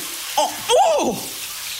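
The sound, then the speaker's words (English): Running water from a surprise cold shower caused by a faulty boiler, a steady hiss with a person's short startled exclamations over it. “That's the sound of a surprise cold shower.”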